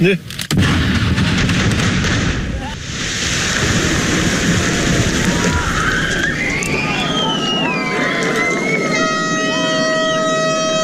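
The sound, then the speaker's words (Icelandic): The first blasting explosion in a road tunnel under construction, the Eysturoy tunnel on the Strendur side in the Faroe Islands, set off at a celebration. A loud boom opens into a long, heavy rumble, then wavering tones and a steady horn-like tone sound near the end. “Fyrsta sprengingin í Austureyjagöngunum í Færeyjum Strandamegin”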